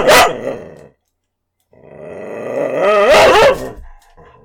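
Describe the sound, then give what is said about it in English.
A dog barks and growls: one sharp bark, a brief silence, then a long rumbling growl that swells louder with a wavering, rising tone before tapering off. “I apologize for the dog... dog noises.”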